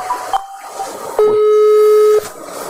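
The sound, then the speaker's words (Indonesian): A phone rings with an incoming call, sounding as a single steady electronic tone held for about a second, loud and alone. “Sopo to iki telepon iki? Ganggu ae.”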